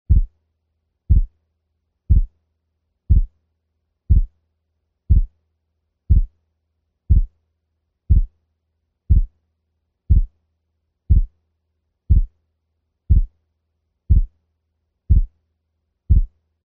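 Heart sounds with a 0.04-second split between their two components form a long, steady series of beats at about one per second. Each beat is short and thumping, with nothing else in the background.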